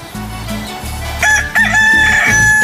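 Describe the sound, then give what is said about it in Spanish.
A rooster crows loudly, with a bright, drawn-out call over a steady low background. “Qué bonito canta, ¿eh? Qué chulo de pechocho. Échale. No, este gallo sí canta, ¿eh? Para despertarlos a todos y a todas”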